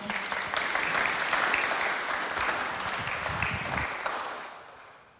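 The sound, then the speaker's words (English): Audience applause, dense and steady clapping that holds for about four seconds and then fades out toward the end, with no voices over it. “let's give a round of applause.”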